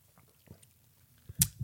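People sipping coffee, with faint mouth and swallowing noises and then one short, sharper slurp near the end, all very quiet.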